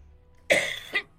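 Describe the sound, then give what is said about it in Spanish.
Three harsh coughs from a person calling numbers at a bingo draw. The first is a longer rasping burst, followed by two shorter sharp ones, with no talk. “Y estamos aquí. Con la tos incluida.”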